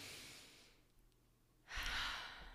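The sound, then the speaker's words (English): A deep breath during a guided breathing exercise: a soft, airy inhale that fades into a quiet pause, then a louder breathy exhale, faint overall with no talk. “We're going to take a deep breath.”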